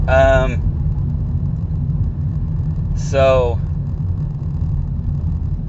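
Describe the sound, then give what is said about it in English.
A car creeping along in slow traffic gives a low, steady engine rumble throughout. A voice speaks in two brief bursts over it, one at the start and one partway through. “I'm trying to merge in some traffic now. I guess I don't need to merge, but it's just really slow.”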